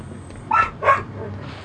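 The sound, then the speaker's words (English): A dog gives two quick, mid-pitched barks over a low, steady background rumble. “You left your dog, you idiots!”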